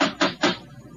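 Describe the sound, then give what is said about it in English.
Knocking with a huge brass knocker on a front door: three quick, heavy raps in a row, each with a short ringing tail, then quiet. “There was no bell. There was a huge brass knocker.”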